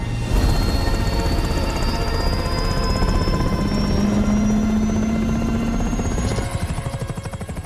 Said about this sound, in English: Twin-rotor helicopter lifts off into the dark night sky.